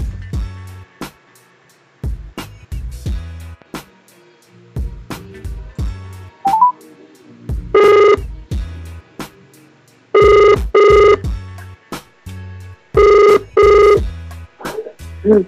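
A telephone rings through during a call, with one ring burst followed by two close-spaced double rings, loud and regular, after a stretch of low sound and a brief tone.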